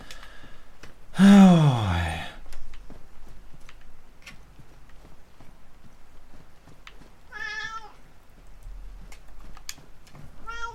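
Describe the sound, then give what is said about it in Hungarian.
A cat meows once in a loud, drawn-out, harmonic-rich call. Later a shorter, softer call is heard, with quiet background sounds in between. “Na, ennyi volt, el is, itt is hagy a macska. Megkapta a Juti falatot, iszik egy kis vizet.”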